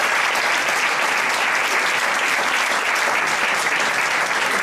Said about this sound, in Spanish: Venga, Enrique Bayón, primero, director de Westfield Park. Un aplauso.